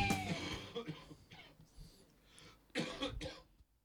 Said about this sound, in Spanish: Me dio toda mi tos así al aire.